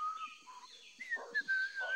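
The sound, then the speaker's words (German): A person sitting on a tree branch whistles a tune in soft, faint notes that waver and shift in pitch through a short melodic phrase. “richtet den Blick nach oben und sieht Frieda auf einem Ast sitzen, pfeifend, in einem blauen Overall.”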